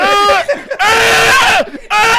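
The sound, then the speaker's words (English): High, strained squealing screams from a voice imitating a struggling spider in a video game, in three harmonic bursts with short gaps between them. “just screaming his little spider scream”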